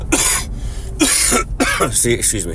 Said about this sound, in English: And as you can hear my voice, I still have a cough after getting better a couple weeks ago. And as I'm coughing, my voice keeps getting hoarse.